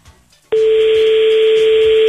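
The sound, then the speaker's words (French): A steady telephone tone sounds as a call is placed to a radio listener. It starts abruptly after a short near-silence and then holds loud and unbroken at one pitch to the end. “On va essayer de contacter là une auditrice ou un auditeur, je l'espère, du côté de l'allée Robespierre.”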